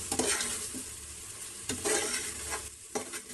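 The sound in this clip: Coriander powder being stirred into masala frying in a pan: a steady, soft sizzling hiss with a few scraping stirring strokes, fairly faint, with no talking.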